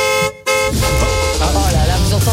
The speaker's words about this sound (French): Ça, c'est le bruit de la voiture gratuite, ça.